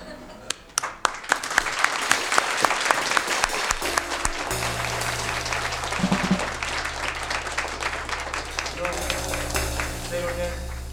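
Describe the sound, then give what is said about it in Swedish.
An audience applauds a visiting trio, starting with a few sharp separate claps that quickly swell into dense, sustained clapping. Partway through, a steady lower tone and voices join as the applause carries on. “Och jag tycker de är värda en kraftigare applåd på Fix.”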